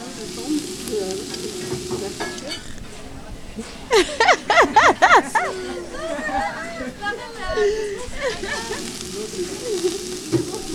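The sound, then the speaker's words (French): Cabbage fries in a pan with a steady, bright sizzling hiss, joined by stirring sounds while a person talks over it. “Qu'est-ce que je fais là ? Je suis en train de frire du chou.”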